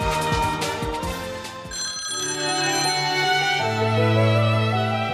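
A telephone rings for an incoming call with a bright, musical ring tone of sustained, layered notes that shift partway through, steady and fairly loud with no voices.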